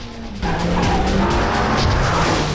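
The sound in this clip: A car speeds off through Los Angeles traffic with its tires squealing: after a brief quieter start, a loud engine roar and a sustained screech of rubber kick in and hold steadily to the end.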